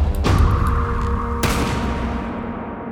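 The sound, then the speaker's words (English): A pirate's pistol being fired: two sharp, loud bangs about a second apart, each trailing off, over a steady low drone. “A bullet between the eyes finishes the job.”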